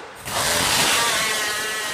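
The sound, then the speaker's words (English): Chainsaw roaring during a chainsaw contest at a wood chopping festival in Webster County, West Virginia; after a brief quieter moment, a loud, steady buzzing drone starts and holds without a break. “It includes a chainsaw contest.”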